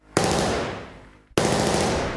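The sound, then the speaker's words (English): Two loud 5.56 rifle shots in a video game, roughly a second apart. Each is a sharp crack followed by a long, booming decay that trails off slowly. “That sounds like a 5.56. It is.”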